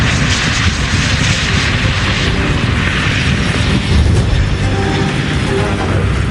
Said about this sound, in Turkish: Baykar tarafından geliştirilen Türkiye'nin ilk insansız savaş uçağı Bayraktar Kızıl Elma yine tarih yazdı.